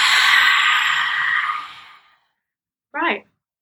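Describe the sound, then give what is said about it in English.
Someone breathes through the mouth in a rasping, masked-villain style during a calming breathing exercise: one long, loud, forceful exhale that slowly fades, then silence and one short, sharp breath sound. “this one's going to be through the mouth this time. Darth Vader. Inhale. Exhale.”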